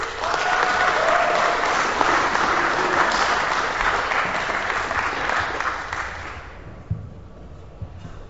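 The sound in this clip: Audience applause welcomes an entertainer to the stage: loud, dense clapping swells quickly, holds for several seconds, then thins and dies away near the end, leaving a couple of faint knocks.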